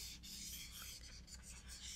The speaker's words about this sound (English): Let me write that down.